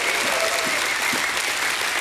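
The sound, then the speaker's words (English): A church audience claps in praise, a dense, unbroken roll of many hands clapping at a steady, loud level throughout. “Somebody give God a hand clap and a shout of praise this morning.”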